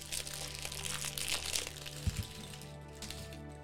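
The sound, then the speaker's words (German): Steady crinkling and crackling of packaging as parts, including a head and a shield, are unpacked, with one soft thump partway through. “So, jetzt haben wir alle Teile ausgepackt.”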